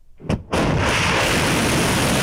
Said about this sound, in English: Iran said these missiles were launched at a US base that, it said, had been used to attack Iranian territory.